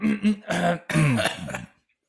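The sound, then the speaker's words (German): A person clears their throat in a few rough, voiced bursts over under two seconds, with gravelly throat sounds and no words, then silence. “Jetzt muss ich mich nochmal räuspern.”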